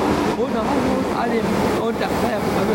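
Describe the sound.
A voice imitates a passing subway train with a continuous, breathy rushing rumble that holds steady and loud for about three seconds.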